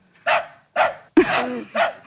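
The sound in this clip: Four sharp dog yaps in quick succession, evenly spaced, loud and alone.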